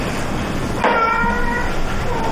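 A cat gives a single drawn-out meow over a steady background hiss, heard alone without talk.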